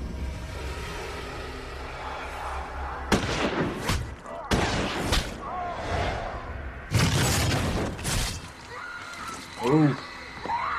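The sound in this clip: Gunshots in a horror film scene where a man is shot and falls back onto farm equipment: a few sharp, loud blasts cut through other film sounds.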